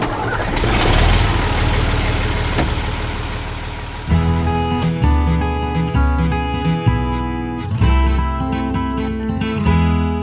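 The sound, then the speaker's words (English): A tractor engine running on top of a hill in Vermont's Northeast Kingdom, powering a rope tow: a few seconds of broad rushing noise, then a loud, steady, low mechanical drone with rhythmic pulsing and occasional surges. “The sound you just heard was a tractor on top of a hill in the Northeast Kingdom. It powers a rope tow.”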